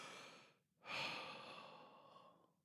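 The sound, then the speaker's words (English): A deep breath drawn in before speaking: one long, breathy intake that swells suddenly and then tapers slowly over more than a second, standing alone without talk. “We're going to take a deep breath.”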